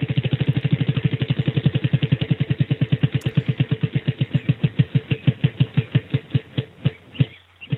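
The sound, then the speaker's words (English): Prize wheel spinning with a long run of loud, regular ticking clicks that start rapid and gradually slow, spacing out more and more as the wheel winds down. “Let's spin the wheel. See what you won today.”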